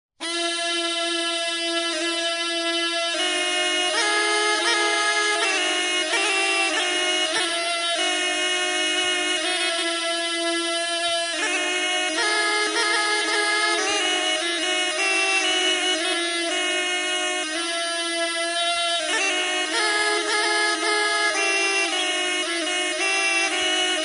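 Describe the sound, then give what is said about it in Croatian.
Diple, a folk double-reed pipe from the Knin region, plays alone with a steady, buzzy, reedy melody over a drone-like tone, evenly loud throughout. “Poslušajmo svirku na diploma, meni moja kazivala Nana.”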